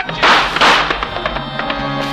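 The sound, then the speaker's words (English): Gunshots in a radio drama: two loud, reverberant bangs in quick succession, followed by a few lighter knocks and taps that trail off. “He stopped the first two slugs from Carew's gun and the first two out of Johnny's, all in the chest.”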